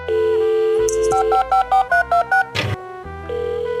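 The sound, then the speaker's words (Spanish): A phone ringtone for an incoming call: a steady electronic tone breaks into a quick, bright run of short beeping notes, then a brief noisy burst, and the tone resumes. “Pará, pará, no sé, me están llamando de nuevo.”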